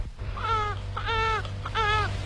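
A newborn baby crying in a shared dormitory at night, heard as three separate wailing cries with a rising and falling pitch, set over a steady low hum.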